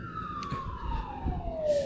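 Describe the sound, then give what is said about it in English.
A fire truck siren passes by as one steady wailing tone that slides gradually downward in pitch, moderately faint, over a low rumble. “fire truck going past.”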